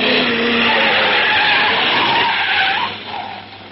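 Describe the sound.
A car's tires skid and squeal as it takes a corner during a chase, a loud, continuous screech with wavering tones lasting about three seconds before it drops off and fades.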